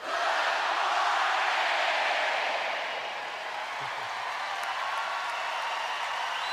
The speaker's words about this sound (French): Eh bien, Bill, Valery, voici un petit salut pour vous de la part du public.